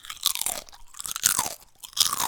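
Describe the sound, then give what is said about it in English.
People chomping on crunchy snacks, with crisp crunching and chewing in uneven bursts that rise and fall, and no talking. “You guys probably heard us chomping on these things the whole time.”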